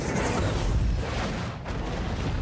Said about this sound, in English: an HK pushing our six. The board right. Breaking off. The HK opens fire. One of the A-10s is destroyed.